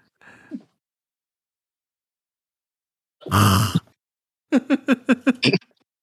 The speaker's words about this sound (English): Prince kind of clears his throat.